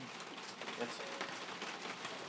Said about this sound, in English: Fucking hell, that rain, oh dear.